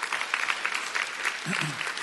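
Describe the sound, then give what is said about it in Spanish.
Applause from a church audience during a sermon, a steady, dense patter of clapping that lasts the whole clip, with a voice briefly audible over it. “Un aplauso a Dios que se lo merece.”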